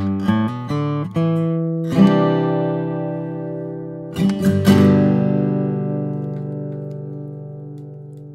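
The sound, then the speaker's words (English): Plucked acoustic guitar with its EQ curves matched to a reference recording: a few quick notes, then a fuller strum. A second cluster of notes follows and rings out in a long, slowly fading sustain. No voices. “And again, what I did was I went ahead and manually redid the curves per the acoustic guitar recording. So it sounds like this. This is guitar matched.”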